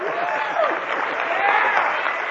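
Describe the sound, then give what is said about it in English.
Audience applause for Robert Anton Wilson: dense, steady clapping from a crowd, holding an even level through the whole stretch with a few thin whoops riding over it. “How about a round of applause for Robert Anton Wilson?”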